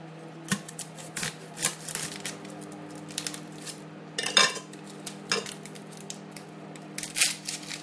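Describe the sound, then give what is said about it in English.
A metal utensil clinks and scrapes against a big cooking pot as it stirs, giving many irregular, fairly faint knocks and rattles spread across the stretch. “I'll just use it to stir and then take it out again.”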